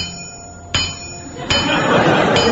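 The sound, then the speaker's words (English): A hammer strikes an anvil three times, each blow a sharp metallic clink with a faint ring, spaced at fairly even intervals over a steady hiss. “Then, through that crack, came a familiar sound.”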